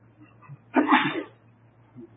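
A single loud sneeze bursts out during a religious lesson, one sharp explosive blast against a quiet background hum, with no talk around it.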